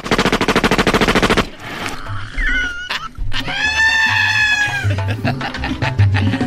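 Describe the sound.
Firing-squad gunfire cracks out in a rapid, loud volley lasting about a second and a half, then gives way to quieter wavering tonal sounds and a low rumble.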